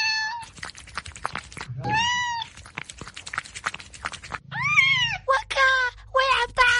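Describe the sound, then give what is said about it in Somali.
A cat meows several times in short, bright, tonal calls that rise and fall, separated by quieter scuffling gaps, with one longer, louder meow near the end. “uma malaynaya in bisadani rabto moos, balse ka warna daasiina caano.”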